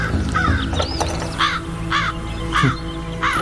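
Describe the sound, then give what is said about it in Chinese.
A crow cawing: several harsh, rasping caws repeat at fairly regular intervals over a steady low background drone. “今日这乌鸦是怎么了？”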